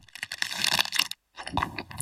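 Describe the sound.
Bubbles in a mint Aero chocolate bar give a soft crackling and popping, heard in two dense bursts with a short silence between them.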